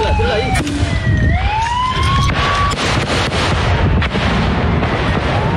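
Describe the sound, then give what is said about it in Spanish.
A grenade launcher fires toward a mountain during a firefight with ELN guerrillas. A few sharp blasts cut through a loud, continuous roar of noise, with whistling tones gliding in pitch. “Dirige lanzagranadas hacia la montaña donde estaban los hombres del frente Juan Fernando Porras del ELN. ¡Espere, espere! ¡Va a tirar una pepa, va a tirar una pepa!”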